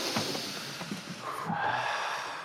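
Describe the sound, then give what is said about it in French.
A group standing in a circle takes a deep breath in together during a breathing exercise: a long, breathy rush of air that swells steadily, with a few soft snorts at the start. “Faites une bonne inspiration là.”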